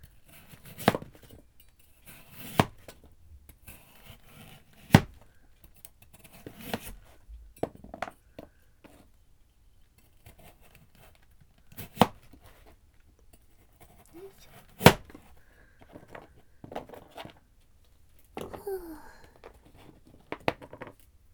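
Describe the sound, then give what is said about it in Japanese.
Knife slicing carrots into thin rounds, cut while seated: sharp, irregular knocks and clicks spread out with pauses, a few strokes noticeably louder than the rest, over a quiet background. “人参も輪切りでいいかな、薄めの輪切りに。座って切ると切りづらい。”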